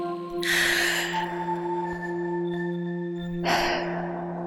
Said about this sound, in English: Now, take a deep breath.